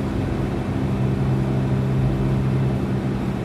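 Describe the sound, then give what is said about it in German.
A car drives slowly along a foggy country road at around 60 to 70, its engine and tyres making a steady, low, droning rumble that stays even throughout with no voices. “Äh, ich bin jetzt gerade auf der Landstraße nicht mehr wie 60, 70 gefahren, weil ich einfach nicht weiter gucken kann.”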